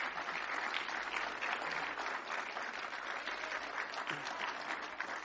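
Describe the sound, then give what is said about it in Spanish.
Applause from a church audience, a faint, steady wash of many hands clapping with no break in its even texture. “Pero un aplauso más fuerte,”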